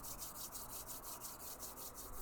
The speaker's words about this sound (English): begin to rub your palms back and forth, generating a little bit of heat and beginning to activate the energy within.